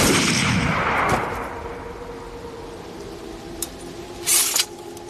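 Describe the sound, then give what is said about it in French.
A firing squad's rifle volley: one loud, sharp crack that fades into a long rumbling tail, followed a few seconds later by a couple of faint, brief clicks. “à mon commandement, en joue, feu.”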